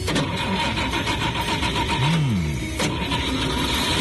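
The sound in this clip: Car engine starting and accelerating at the start of a trip, with a loud, continuous rumbling drone that stays dense and steady throughout.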